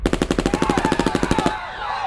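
Rapid automatic gunfire from the street: a regular burst of many sharp shots, about ten per second, that stops abruptly and leaves a short fading tail.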